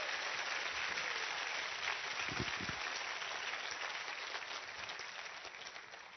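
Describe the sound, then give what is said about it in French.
A church audience gives an ovation, with steady, dense applause that holds as an even wash of clapping and fades slightly toward the end. “Acclamons le Seigneur. Acclamons le Seigneur. Faisons une ovation, Seigneur.”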